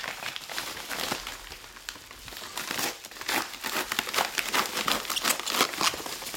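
Paper crinkling and rustling as a parcel is unwrapped to reveal a national team football jersey and a card: continuous dense crackles and crumples, with many sharp bursts that grow louder and busier in the second half, with no voices.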